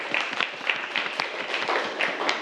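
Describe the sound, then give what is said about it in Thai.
Students in a classroom clap for a classmate, a dense, steady patter of many overlapping claps that continues evenly from start to finish without a clear beat. “อ๋อเก่งมากเลยปรบมือให้เพื่อนนักเรียนนะครับ”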